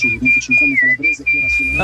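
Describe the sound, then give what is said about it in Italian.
Someone whistling a tune, a clear, high melody of held notes with a brief dip in pitch in the middle, over people talking underneath. “C'è qualcuno anche che la fischia.”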